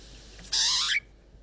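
A pied butcherbird calls indoors inside a house, a single loud, bright burst lasting about half a second, preceded and followed by quiet.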